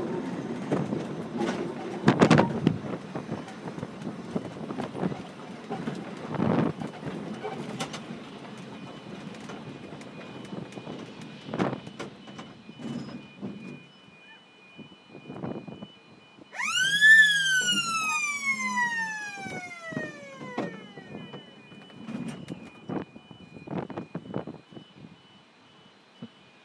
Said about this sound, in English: as by the sound of it, people continue to cross the level crossing.